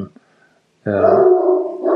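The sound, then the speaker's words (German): A dog vocalizes to chase away another dog, giving a loud, sustained, tonal bark-howl that lasts about a second after a short quiet gap. “das ist mein Hund, der da gerade einen anderen Hund wahrscheinlich vertreibt.”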